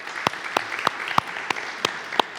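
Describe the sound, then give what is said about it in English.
A church audience applauds the worship team. A soft, steady wash of clapping runs throughout, with sharp, loud claps repeating in an even rhythm about three times a second. “By the way, can we give our worship team a hand for just leading us today?”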